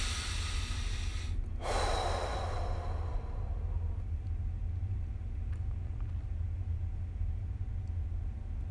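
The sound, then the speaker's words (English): A single deep breath taken during a guided meditation: one short, breathy swell early on over a steady low rumbling background that continues unchanged afterward. No talk is heard. “Take a deep breath.”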